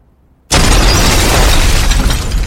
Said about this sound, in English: What the heck was that? Oh, no. Number 55 has exploded.